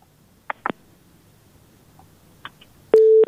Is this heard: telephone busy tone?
yes